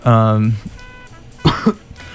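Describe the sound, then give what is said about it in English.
Two short, harsh coughs from a person with no cold, close together, following a brief voiced sound at the start. “I don't know why I'm coughing, I don't have a cold, it just happens”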